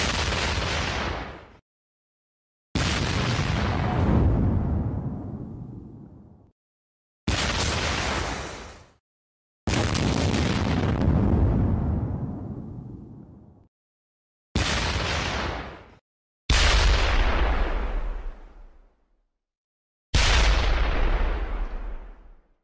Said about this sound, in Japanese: よし、爆破。第一の爆弾。